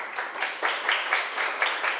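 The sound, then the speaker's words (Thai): Classmates clapping for a student group after its presentation in a classroom: a modest patter of hand claps with uneven little surges, moderately loud. “ขอบคุณกลุ่ม2ค่ะปรบมือให้เพื่อนหน่อยค่ะ”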